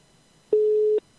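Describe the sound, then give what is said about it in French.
One steady, mid-pitched telephone tone sounds for about half a second as a call is placed and rings, alone against near silence. “Attention, c'est parti, on lance l'appel en direct sur Radio RPA”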